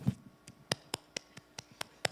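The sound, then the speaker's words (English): Golf clap: slow, quiet clapping with about eight soft, evenly spaced claps at an unhurried pace. A brief low sound comes just before the first clap. “Going to the Super Bowl. Golf clap.”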